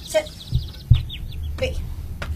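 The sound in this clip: Caged birds in a bedroom chirp in quick, high, repeated bursts, with a few soft low thumps underneath.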